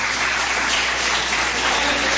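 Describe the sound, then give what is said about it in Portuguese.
Clapping from a church audience during a worship service: a dense, steady wash of many hands that runs through the whole clip with no talk over it. “se assenta e glorifica Jesus com palmas e glória a Deus.”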